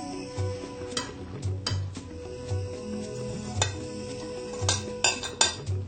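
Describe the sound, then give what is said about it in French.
Onions sizzle as they fry in a pan, a steady hissing crackle broken by several sharp clinks and scrapes of stirring, with no talk. “Il faut laisser chauffer un tout petit peu. Et puis, les oignons seront grillés jusqu'à ce qu'ils soient un peu dorés.”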